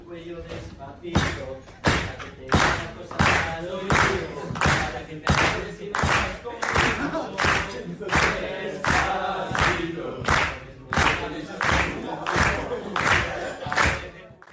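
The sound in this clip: Audience clapping in steady rhythm along with a live Latin pop performance, loud sharp claps repeating at an even beat over singing and music beneath.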